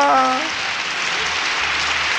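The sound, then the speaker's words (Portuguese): Audience applause at a music programme welcoming a young guest, a loud, dense, steady roar of clapping after a brief tonal sound fades at the start. “Então, mais palmas.”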